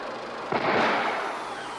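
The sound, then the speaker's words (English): A gunshot fired just before a car tire blows out, from a film scene: one sudden sharp crack that swells into a broad, rushing burst of noise and slowly fades. “That's what I heard just before the tire blew out. You're right, it was a shot.”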